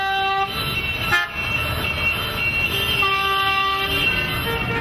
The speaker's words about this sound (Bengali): ওই এতক্ষণে কালীঘাটের পুল থেকে আস্তে আস্তে নামতে দেখা যাচ্ছে শ্রীযুক্ত ট্রাম্পকে